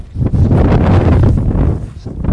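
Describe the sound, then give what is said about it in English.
Wind gusts across a grassy ridge beside a steep decline, buffeting the microphone with a loud, continuous low rumble that swells and eases slightly over the few seconds. “We parked the rental car on a windy ridge next to a steep and grassy decline that suddenly drops in the distance.”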